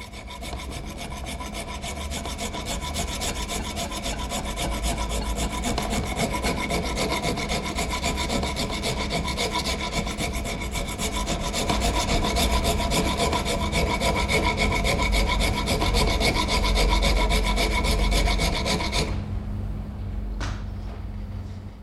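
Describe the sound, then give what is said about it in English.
A hand rasp is worked in long, continuous abrasive strokes, making a steady, gritty scraping texture that holds loud and even for about nineteen seconds before stopping abruptly. “Here's the sound of the rasp. I don't know if you can pick this up.”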